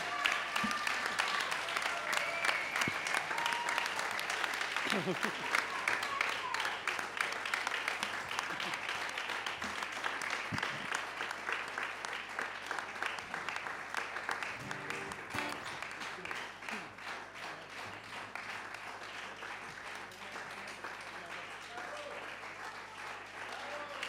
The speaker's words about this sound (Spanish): Fuerte aplauso para Emiliano